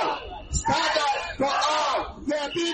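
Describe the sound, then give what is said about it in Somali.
A crowd of protesters shouts demands for legal status for immigrants, their massed voices rising in loud chanted bursts separated by brief breaths, like a rally cry. “dadkani waxay ku qeylinayaan in dhammaan dadka soo galo tigaha sharci la siiyo oo middaasna loo midoobo si guul looga gaaro.”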